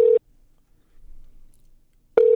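Ringback tone of a phone call that goes unanswered and fails to connect: two steady tone bursts separated by about two seconds of near silence.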